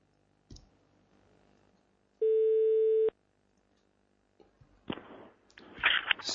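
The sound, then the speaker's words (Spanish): A phone call cuts off with a click, then a single steady tone that lasts about a second. Quiet follows, then some louder noise near the end. “Se ha cortado, ¿no? Sí, se ha cortado la llamada.”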